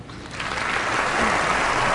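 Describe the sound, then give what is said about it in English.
An audience at the Oscars breaks into applause. The clapping starts softly, swells within the first second, and then holds as a steady, full wash of many hands. “And these fucking phonies just clap. Because they're supposed to. These fucking trained seals just start clapping.”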